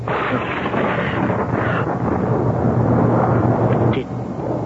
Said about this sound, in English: Did you see and hear that? See what? Above the Capitol. All shimmering with fire about him like a halo and great forked bolts of lightning shooting from his hands.